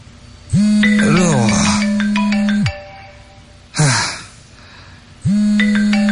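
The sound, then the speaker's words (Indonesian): A mobile phone ringing with an electronic ringtone: a few loud bursts of bright, tinkling melodic tones over a steady low hum, separated by short gaps. “handphone itu berdering lagi.”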